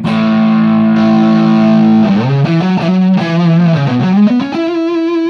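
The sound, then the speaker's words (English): An electric guitar plays through an amp's lead channel with the gain lowered, giving a thick, sustaining distortion that edges into fuzz. One loud chord rings steadily, then a run of single notes follows with long sustain. “it's unmistakably a fuzz, you know. Sort of like a distortion that morphs into a fuzz. And if I drop the gain a little bit and then hit the lead channel,”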